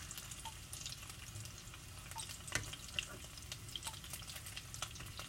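Food frying in hot oil gives a faint, steady sizzle with small crackles and pops scattered through it.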